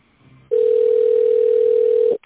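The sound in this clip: A telephone tone sounds while an office call is being transferred to a specialist: one steady, unbroken mid-pitched tone of nearly two seconds, loud and alone, cutting off abruptly.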